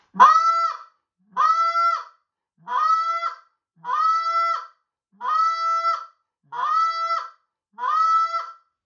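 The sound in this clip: Goose honks blown on a hand-held goose call, with air pushed in short breaths: seven evenly spaced, loud, reedy honks, each a steady tone that breaks and drops at its end, with clean silence between.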